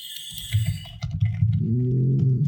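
Typing on a computer keyboard gives irregular, light clicking keystrokes, joined in the second half by a low, droning hum beneath the taps.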